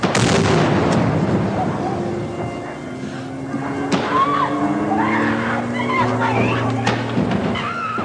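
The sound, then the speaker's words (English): Loud blast of a stun grenade and an explosive charge blowing in a first floor window during the 1980 Iranian embassy siege raid; a sharp burst opens, followed by rumbling as voices talk over it. “One officer was lowered from the roof and threw a stun grenade into the building. An explosive charge was detonated to blow in a first floor window.”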